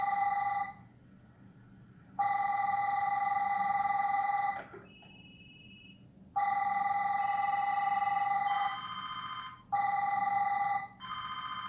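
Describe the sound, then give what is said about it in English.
Telephones ringing in an office: a loud electronic ring repeats in long bursts with short gaps, about four in all, and a second, higher-pitched ring cuts in briefly between them. No one speaks. “How many phones do you have in your house? Oh, you're in the office. That was weird. A lot of phones though,”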